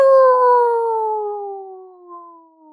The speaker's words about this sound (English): he hears a wolf. And he's like, you don't have to be a philosopher to know that those wolves sound very close. Sounds like a lot of them.